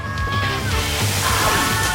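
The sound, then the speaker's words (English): Water rushes and sloshes as a body slides down a backyard water slide into a pool, a loud, steady wash of splashing noise lasting the whole moment. “In the backyard, Preston slides down the water slide into the pool.”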